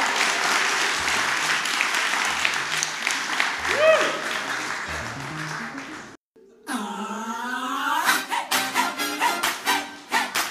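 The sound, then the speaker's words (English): Audience applause for first-act performers at a live show: thick, continuous clapping with a voice over it for about six seconds, then a brief pause before music starts. “Can we hear a big round of applause for the, our fabulous first act performers”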